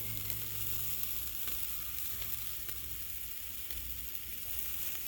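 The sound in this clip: Food sizzles while it cooks, a faint, even hiss with a soft low rumble that holds steady throughout without voices.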